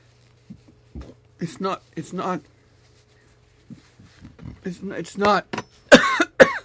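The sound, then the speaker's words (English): Coughing brought on by a tickle in the throat: a few harsh bursts mixed with brief vocal sounds and short gaps, the strongest coughs coming near the end. “That's just a tickle. It's more than a tickle because it makes me cough”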